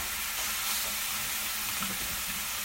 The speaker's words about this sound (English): you add it to the hot oil on the pan. Once the onion is nice and brown, you add the meat.